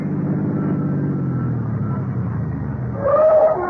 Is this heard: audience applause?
no